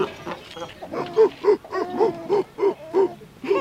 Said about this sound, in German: das sind die Robben oder Seehunde, nicht?